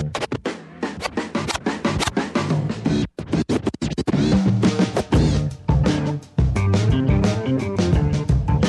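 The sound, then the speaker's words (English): Turntable scratching cuts rhythmically through a loud, dense jazz hip-hop track. Rapid scratch strokes play against the band's instruments and drop out briefly in a few short gaps. “So as you can hear, at least some of the scratching there, a little hip-hop.”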